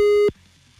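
A steady, mid-pitched phone line tone sounds while someone dials a call, holding loud and even for a fraction of a second before cutting off abruptly into near silence.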